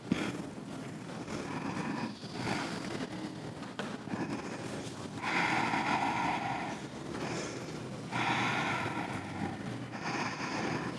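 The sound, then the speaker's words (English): Ujjayi yoga breathing: soft, ocean-like rushing breaths through the throat in a few slow in-and-out cycles, steady and moderately loud, with the stronger airy swells coming in broad waves. “Nice Ujjayi breath. It's just in and out, in and out.”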